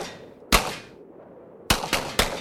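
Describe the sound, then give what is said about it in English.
Gunshots from a gun fired at the rope tethering a descending balloon basket: one sharp, loud crack, then after a pause three quick cracks in close succession. “I'm gonna shoot the rope and break free.”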